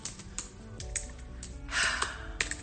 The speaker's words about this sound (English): I'm going to go on here to Google and I'm going to type, how do I make money?